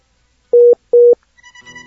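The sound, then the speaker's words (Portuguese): Two steady telephone tone beeps, each about a fifth of a second, sound while a lost call is being redialed. A faint, wavering tonal hum follows them. “Opa, acho que a gente tá perdeu a conexão com o Renato. A gente vai refazer a ligação aí.”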